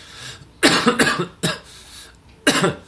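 A few dry, harsh coughs from a person with a parched, cotton-dry throat. They come as short rasping bursts: a quick cluster, then a single cough, then one more after a pause. No talking is heard.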